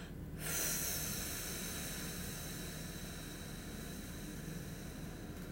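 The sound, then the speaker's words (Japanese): A person exhales slowly during a breathing exercise, making a long, breathy, airy hiss. It begins after a brief moment of quiet, then holds steady and fairly soft to the end. “吐きますゆっくり吐きましょう”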